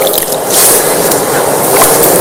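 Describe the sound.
Water pours over the left hand as it is washed for ablution, using only a little water. A steady, loud hiss of flowing, splashing water runs throughout, with no talk.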